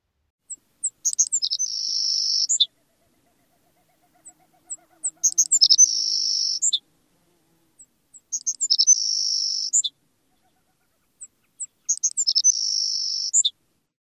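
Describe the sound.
An open-country sparrow sings its three-part song four times, each separated by silence. Each song opens with a few high, thin ticks, moves into a sustained buzzy middle section and ends with brief, very high notes.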